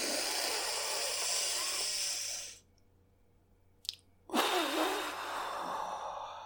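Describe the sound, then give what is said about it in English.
Deep belly breathing during a breathing exercise, in through the nose and out through the mouth: two long, loud, airy breaths separated by a quiet pause. “You start by inhaling through your nose and exhaling through your mouth, taking 3 to 5 deep belly breaths, with each one lasting 3 to 5 seconds.”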